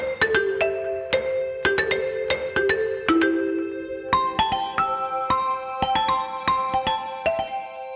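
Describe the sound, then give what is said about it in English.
A custom alarm tone built for waking up plays a rhythmic melody of bright, chime-like notes with sharp attacks. It repeats in a steady pattern, loud and without voices, in place of ordinary beeping. “Stuart went about designing a custom alarm tone with a rhythmic melody that led to significantly better performance for waking up compared to your typical beeping alarms. And it sounds like this.”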